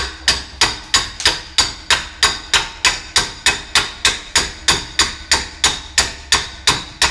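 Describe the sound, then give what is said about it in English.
A hammer tapping a part into a yoke during assembly: many sharp, evenly spaced strikes in a steady, brisk rhythm, each quickly decaying, with no talk. “I'm going to give it just a little tap here with the yoke on it.”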